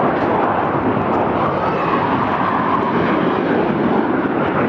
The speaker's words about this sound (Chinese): 这次出现在我们上空的这个三架歼十五组成的编队